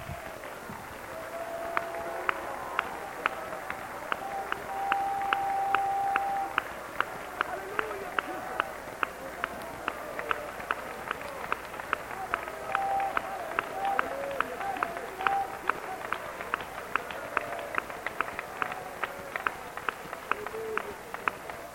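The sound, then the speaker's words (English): A church audience claps their hands in worship during a service, a steady, evenly spaced beat of claps continuing throughout, with voices underneath. “Would you clap your hands for the Lord this morning? Would you worship him by lifting your voice?”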